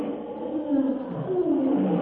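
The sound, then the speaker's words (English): A bull ape's challenging cry: a loud, sustained, rough roar, low and guttural, swelling slightly in loudness as it holds on, with no other voices. “Tarzan leaps forward with a challenging cry of the bull ape”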